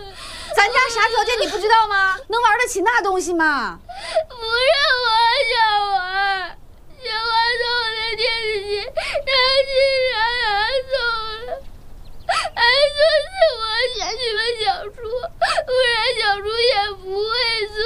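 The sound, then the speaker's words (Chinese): A child cries hard, high wavering wails and whimpering sobs in long loud bursts separated by short breaths and pauses, the pitch bending and sliding throughout. “你这孩子，越来越不懂事儿了。不给买就哭啊！”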